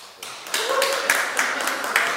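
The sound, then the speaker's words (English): An audience clapping, a burst of mixed hand claps that starts abruptly and carries on at a steady, moderate level with a few sharper accents. “Why are y'all clapping? What's up with that?”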